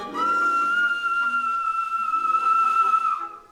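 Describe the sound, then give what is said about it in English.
A shrill, steady whistle from a man with his hands to his mouth, holding one clear high pitch for about three seconds before cutting off. “puts his hands to his mouth and whistles.”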